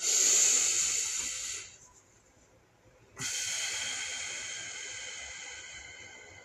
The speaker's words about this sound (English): So let me focus real quick. Breathe in.